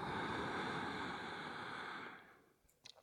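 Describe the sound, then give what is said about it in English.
A full inhale through the nose: a steady, breathy rush of air lasts about two seconds, fades away, and is followed by a couple of faint soft ticks, with no talking. “Full inhale in through the nose.”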